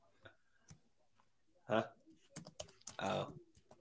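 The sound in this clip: Typing a message on a computer keyboard: quick, uneven key clicks with several louder clattering bursts and short pauses between flurries.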